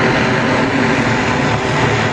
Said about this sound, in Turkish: Çin tarafından geliştirilen elektrikli dikey kalkış ve iniş yapabilen uçan taksi, Astana semalarında başarıyla havalandı.